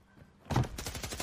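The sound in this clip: Revolver gunfire in a video game: a rapid, fairly faint burst of many shots in quick succession following a moment of near quiet.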